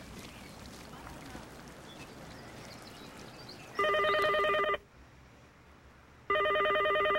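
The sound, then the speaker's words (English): A telephone rings on an incoming call in two bright, buzzing electronic bursts separated by a short pause. The second burst cuts off, and a stretch of dull background noise comes before the rings. “Pick it up. Pick the phone up, please.”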